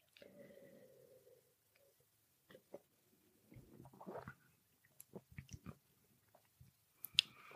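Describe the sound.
Faint slurps and mouth sounds of sipping and tasting a golden, lightly hoppy beer, in short scattered bursts separated by near silence.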